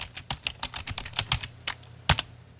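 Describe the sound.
Numbers are typed on a computer keyboard for online banking. Many quick, irregular, fairly faint key clicks run in a stream, and one sharper keystroke comes near the end.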